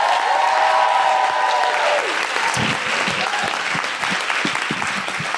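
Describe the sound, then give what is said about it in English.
An audience at a live comedy show applauds to welcome a comedian onstage. The clapping is dense, loud and continuous, and a voice speaks over the first two seconds. “Please put your hands together and welcome the very funny Deborah Frances White.”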